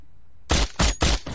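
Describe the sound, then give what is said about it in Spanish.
Sniper rifle fire in an action thriller: after a moment of quiet, three sharp, loud cracks come in quick succession, each with a short decaying tail. “El francotirador abate a un sicario y observa a otro.”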